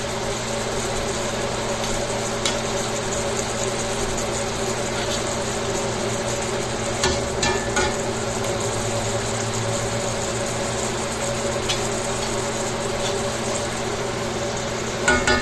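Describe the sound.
Oil frying in a pan holding a little too much oil: a continuous, even sizzle with scattered faint crackles over a steady low hum, unchanging across the whole stretch.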